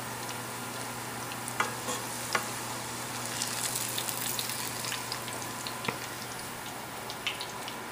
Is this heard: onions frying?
yes